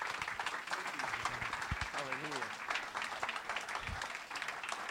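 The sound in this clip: An audience at a morning church service applauds to welcome a speaker with steady, dense clapping, and a voice briefly rises above it.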